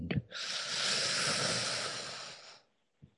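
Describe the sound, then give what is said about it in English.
A single deep breath drawn in, long and steady, lasting a little over two seconds. It starts and ends with soft clicks and is heard on its own, without talk. “Breathe in.”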